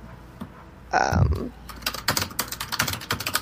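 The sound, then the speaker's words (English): Typing on a computer keyboard, with many quick, light key clicks in irregular bursts that grow busier toward the end. “Sorry, I should mute while you talk so that we don't have to edit out my typing over your talking.”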